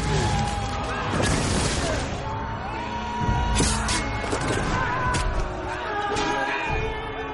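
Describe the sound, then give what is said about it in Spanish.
Axe blows land in a chaotic medieval battle as a man defends himself, a dense, continuous din of clashing impacts and crowd shouts with no quiet moments. “Se defiende de los hachazos de un hombre.”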